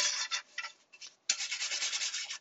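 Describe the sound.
Scrubbing strokes as a camping frying pan from a cookware set is polished: short bursts of rubbing, a brief pause, then a longer run of quick, even back-and-forth strokes, heard alone with no talk.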